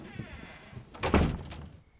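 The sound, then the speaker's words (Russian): A door being opened indoors gives a single muffled clunk and rattle near the middle, rising from a quiet background and then fading. “Она кладет расческу и открывает Шону дверь.”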